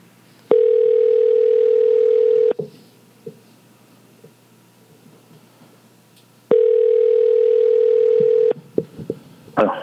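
Telephone line tone as a call is placed: two steady, even tones of about two seconds each, separated by a roughly four-second gap with faint clicks. No one speaks.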